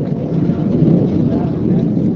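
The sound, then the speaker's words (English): US warplanes high overhead send a deep, continuous rumble of jet engines across a vast plain. The steady, heavy roar holds without clear breaks. “The rumble of their jet engines echoes across the vast Somali plain.”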